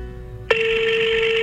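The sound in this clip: A telephone ringing unanswered on a call: a steady electronic ring tone starts abruptly partway in and holds evenly to the end.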